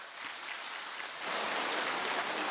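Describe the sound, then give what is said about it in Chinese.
Quiet applause from a group, a soft hiss of many hands that grows noticeably louder about halfway through and then holds steady. “鼓掌。”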